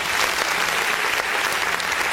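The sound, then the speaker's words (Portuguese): Applause from many hands, a dense and steady patter of clapping that holds at an even loudness from start to finish, with no voices over it. “Palmas para você mesmo.”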